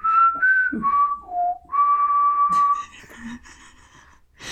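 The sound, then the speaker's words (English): A very human-like whistle in a rainforest: a short series of clear, pure notes stepping downward, then one long held tone, followed by softer breathy puffs and rustles. “I was thinking of the, like, Hunger Games whistle.”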